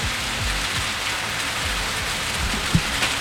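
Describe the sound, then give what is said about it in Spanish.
Heavy rain falls on a city street on the flat lower part of Valparaíso, by Independencia street, a dense, constant hiss of drops striking pavement that stays loud and even, with no voices. “Llueve a esta hora muy intensa la lluvia que está cayendo en Valparaíso. Nosotros estamos en el plan de la ciudad. Este es el ruido ambiente, este es el sonido.”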